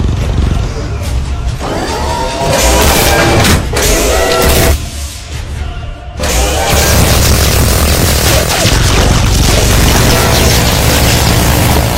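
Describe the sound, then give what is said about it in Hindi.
Artillery shells being fired in a barrage: loud, heavy booming and rumbling that fills nearly the whole span, with a brief dip in intensity midway before the pounding resumes. “अभी तक 1200 गोले fire हुए हैं, 2 मजीद targets की तबाही confirm है। शिकारी number 1 ने 2200 गोले फायर किए हैं।”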